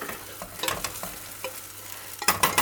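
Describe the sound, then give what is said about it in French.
Food frying in a pan, a steady soft sizzle broken by light scraping and stirring clicks, growing louder and busier near the end. “Et maintenant, on laisse cuire. Alors, on fait en sorte qu'on essaye que ça n'attache pas. On va vérifier, voir si ça accroche pas trop dans la poêle.”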